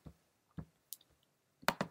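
Computer mouse clicks as a button is selected in software, a few soft, sharp clicks spaced irregularly, with a quick pair near the end.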